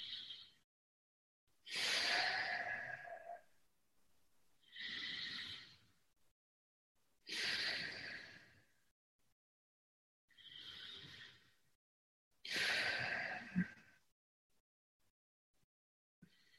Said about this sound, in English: I'm going to take 3 deep breaths.